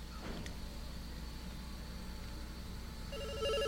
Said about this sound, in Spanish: Hay llamada telefónica. A ver, vamos ahí. Vamos con la llamada telefónica.